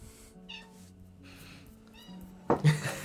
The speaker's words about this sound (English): She wants to leave. There goes that cat again. Be quiet.